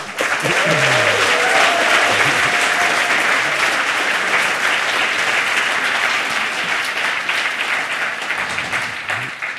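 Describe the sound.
Audience applause welcoming a speaker to a talk on making cool things with microcontrollers: dense, steady clapping that holds at a loud level throughout and eases slightly at the end.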